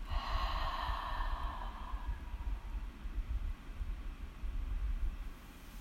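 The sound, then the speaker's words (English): A deep breath drawn in during a guided seated stretching routine: a breathy hiss lasting about two seconds that then fades. A steady low rumble continues underneath. “take a deep breath in, and we'll turn to the right. So deep breath in”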